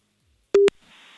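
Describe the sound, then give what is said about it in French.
A telephone gives a single short, steady, low-pitched tone as a call is placed, loud and abrupt, followed by a faint hiss. “On appelle cette fille”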